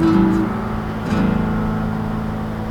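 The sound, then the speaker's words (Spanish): Steady road traffic noise: a continuous low rumble with a faint droning tone running through it, with no voices. “¿Cuándo va a acabar el tráfico?”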